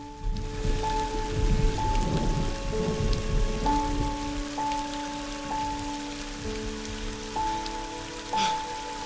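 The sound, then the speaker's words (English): Rain spatters on the open sea, a steady hiss of dense, fine pattering that runs unbroken from start to finish. “Rain starts to spatter on the sea.”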